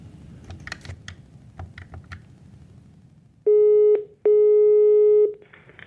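Ringback tone of a telephone call being placed: two loud, steady tone bursts, the second longer than the first, following a stretch of soft keyboard-like clicks.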